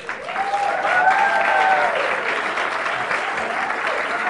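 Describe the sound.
Audience applause welcoming a speaker at a Beth Adonai audience gathering: dense, steady clapping that fills the whole clip at an even level, with some voices mixed in.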